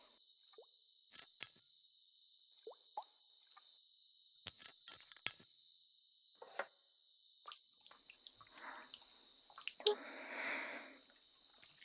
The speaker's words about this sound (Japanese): 少しオイルを追加いたしますね。